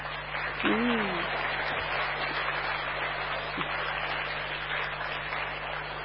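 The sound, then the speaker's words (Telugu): An audience claps for three teachers at a community gathering, producing a dense, steady clatter of applause that continues evenly from start to finish. A voice briefly sounds over it near the beginning. “మనం ఏం చేయాలి, చప్పట్లు కొట్టండి.”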